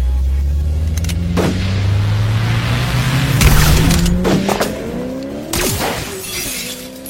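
A car accelerates hard as it drives off fast in a chase. The loud engine tone climbs steadily in pitch throughout, with a few sharp crashing bursts cutting across it.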